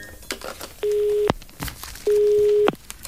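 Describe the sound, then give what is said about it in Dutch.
A telephone tone after a number is dialled: two long, steady, mid-pitched tones, each ending in a sharp click, separated by a pause with faint clatter and background noise. “En dat klinkt er als je het nummer draait wat ik zojuist gedraaid heb.”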